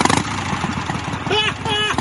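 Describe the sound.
A Harley motorcycle rides away with a steady, throbbing engine rumble, and voices talk over the noise.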